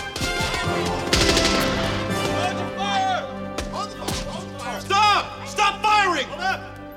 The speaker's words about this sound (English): Let's all shoot him. And then the bullets just bounce off him. Yeah. And they're like, well, what do we do now? Put your weapons down. I want to talk to both sides. Stop shooting.